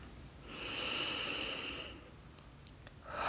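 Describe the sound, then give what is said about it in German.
Deep, slow breathing during a relaxation exercise, with one long, soft, airy breath that swells and fades. A few faint clicks follow, then another breath begins at the end. “Und atme tief ein und aus.”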